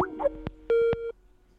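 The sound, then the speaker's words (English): Incoming phone call alert tone: a few soft clicks and pops, then a short, steady mid-pitched electronic beep, heard alone without talk. “Oh, hold on here. We got a call coming through.”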